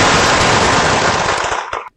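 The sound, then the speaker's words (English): Rapid gunfire as a group fires dozens of shots into a home early on a Saturday morning, captured by a home surveillance camera. The cracks run as a loud, dense, overlapping barrage for about two seconds, then stop abruptly. “Wow, you can really hear all those bullets heading off there.”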